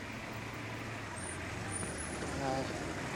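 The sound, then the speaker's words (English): A bus pulls away in a film scene, giving a faint, low engine rumble that swells slightly toward the end, with a thin, high squeal briefly above it. “She leans out of the window and touches his hand as the bus drives away.”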